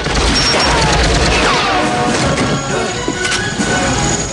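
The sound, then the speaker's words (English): Gunfire and explosions fill a film battle around a tank, with a mounted gun firing, a firebomb thrown and grenades raining down. The noise is a loud, continuous roar of shots and blasts with no pause. “Troutman fires a mounted gun as Rambo lobs the Molotov at the tank. Hamid's grenades rain down on the tank. The Russians flee the burning vehicle. Rambo guns them down.”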